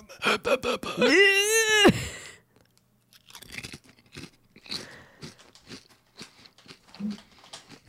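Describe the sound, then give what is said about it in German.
Crunching of a potato chip being eaten: first a few short vocal sounds and a drawn-out moaning vocalization, then after a brief pause a long run of many irregular, crisp crunches as the chip is chewed. “Ich esse jetzt so einen Chip.”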